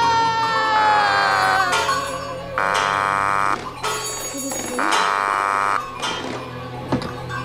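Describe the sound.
Three long buzzing telephone signals sound over a line, each a harsh tone lasting about a second and separated by short gaps, with a steady hum underneath.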